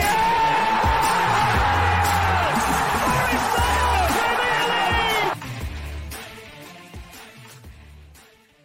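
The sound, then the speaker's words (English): A stadium crowd roars for a Nottingham Forest goal at the City Ground. The loud, dense cheering and whooping holds for about five seconds, then drops sharply and fades away. “Taylor Wadi scores! And the City ground goes ballistic!”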